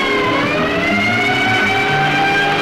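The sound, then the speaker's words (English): A battered ambulance siren sounds on a street as a loud, continuous tonal wail with layered harmonics that barely shift in pitch, heard alone without voices. “Along the street towards the shop screams a battered ambulance.”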